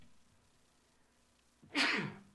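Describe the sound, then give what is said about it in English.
A single loud sneeze from a person bursts out after a stretch of quiet background hum, sharp at its onset and then trailing off over about half a second. “Excuse me, I had to sneeze.”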